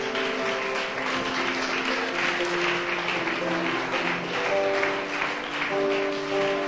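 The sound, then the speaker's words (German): Church audience clapping hands in praise during a bilingual English and German service, a dense, sustained wash of applause that stays loud and even throughout, with some sustained vocal tones mixed in. “Let's give the Lord a hand. Lassen Sie uns die Hände klatschen zum Herrn.”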